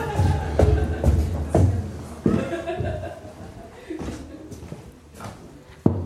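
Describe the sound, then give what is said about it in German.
Heavy footsteps stomping up a staircase: several dull, booming thuds in an uneven rhythm that grow slightly quieter before one last sharp, louder step. “da stapfe ich mal hoch.”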